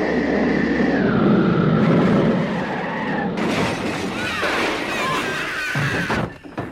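A spaceship makes a hard landing: a loud, sustained roar with a whining tone and a screeching, skidding texture turns harsher and noisier midway, then cuts off abruptly near the end.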